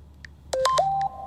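Mobile phone keypad tones as a text message is typed: three short electronic beeps in quick succession, each at a different steady pitch, with a few faint clicks before and after, quiet and without voices.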